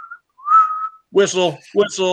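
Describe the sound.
A voice imitates a referee's whistle at a basketball game: a brief high tone, then a longer sustained whistled note, followed by someone talking.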